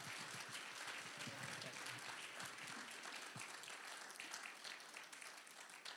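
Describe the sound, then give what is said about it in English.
A church audience applauds at a Church of God morning service, with dense, steady clapping that continues throughout and softens slightly toward the end. “So would you give him a good hand this morning and welcome him to Nortonsville Church of God.”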